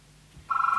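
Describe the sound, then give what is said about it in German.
Electronic telephone ring begins about halfway through after near silence, a steady warbling two-note tone that holds at a fairly loud level until the end. “Das Telefon.”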